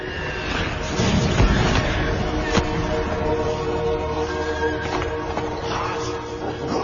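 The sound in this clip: Apes on horseback charge across a battlefield in a slow-motion war film scene. A dense, continuous rumble of hoofbeats and noise carries on throughout, with a sharp impact near the middle.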